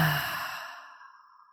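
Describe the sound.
A deep breath released through the mouth during a guided breathing exercise: a single soft, breathy exhale that starts fuller and fades away over about a second and a half.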